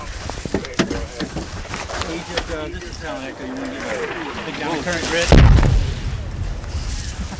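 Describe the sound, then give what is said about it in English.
Incoming mortar fire explodes nearby in one sharp, heavy low boom that cuts through steady conversation among people talking before and after the blast. “Let Egypt Tango know we're taking mortar fire again over. That was a pretty good one there, man. Yeah, it was. That was close. That's one of the closer ones.”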